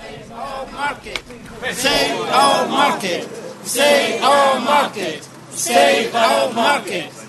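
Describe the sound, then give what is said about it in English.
Market traders chant in protest outside a council building in Milton Keynes, a crowd of raised voices shouting a slogan in repeated loud bursts with brief lulls between them. “that's the sound of market traders in Milton Keynes protesting outside the council last night”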